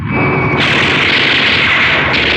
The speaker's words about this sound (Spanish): Uno a uno, los cinco aviones de combate se lanzan contra Calimán, haciendo funcionar sus armas.